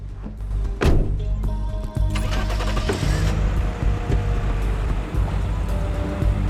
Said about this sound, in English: With the window down, he starts the SUV and drives away, passing Iverson